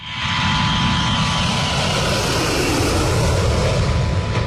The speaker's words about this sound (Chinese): 训练中，轰 6K 战机带头从南方某机场起飞